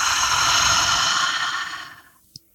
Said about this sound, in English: I want you to go ahead and take another big, deep, clearing breath. Breathe in. Breathe out.